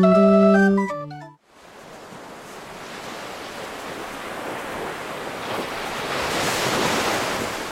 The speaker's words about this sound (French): Imaginez la mer au petit matin. L'horizon est calme, presque immobile, et pourtant, l'eau ne cesse jamais vraiment de bouger. Les vagues avancent doucement vers le rivage